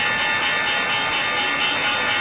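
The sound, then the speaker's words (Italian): The Wall Street stock exchange bell rings in rapid, continuous strikes, a bright sustained metallic tone pulsing several times a second at a steady level throughout. “lo scampanellio molto allegro, lo sentite, perché anche Wall Street ha celebrato ieri la vittoria del centrista Emmanuel Macron.”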